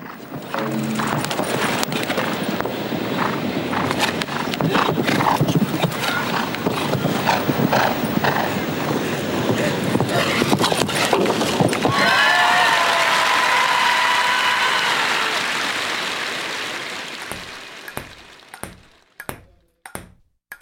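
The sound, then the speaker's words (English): Horse hooves clip-clop at an equestrian jumping event under a dense, loud crowd roar that holds steady, then thins and fades, leaving a few sparse, isolated knocks near the end. “I leave you with one of my favorite sounds, the equestrian jumping event.”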